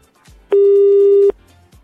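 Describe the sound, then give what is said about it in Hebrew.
An outgoing telephone call gives a single steady, pure beep that lasts under a second, loud and flat in pitch, with near quiet on either side. “הטלפון שלנו בדרך עליכם. רק תענו לנו, שיחה לא מזוהה. הנה זה מגיע עכשיו. אתם מחייגים?”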